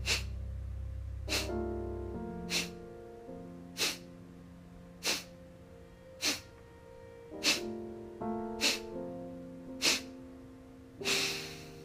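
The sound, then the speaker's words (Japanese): Kapalabhati yoga breathing, short forceful exhalations snorted through the nose in a steady rhythm about once a second, many in a row, over soft sustained tonal music. “大きく鼻から吸ってカパラバティ”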